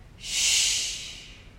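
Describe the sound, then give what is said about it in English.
A forceful breathy exhale released during a seated yoga twist in a high school stretching session: a single airy hiss that swells quickly, holds for about a second and fades away on its own. “So it might have sounded weird, it might seem silly to you all, but what's really, really amazing is that exhale or that release is”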